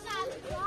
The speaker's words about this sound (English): As y'all could hear the kids in the background or whatever